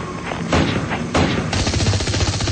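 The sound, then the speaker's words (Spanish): Gunfire from robot men shooting from afar: a dense, loud burst of rapid shots with heavy thuds that runs almost without pause through the whole clip. “Corren desesperados, con los cascarudos demasiado cerca y los hombres robot disparando desde más lejos.”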